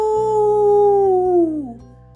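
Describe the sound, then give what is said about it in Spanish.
A voice imitating a wolf howl: one sustained, tonal "aú" call lasting about two seconds that holds steady, then slides downward in pitch at the end, over a low steady drone. “si la víctima a acechar es un humano, el lobo deberá aullar de manera normal. ¡Aú!”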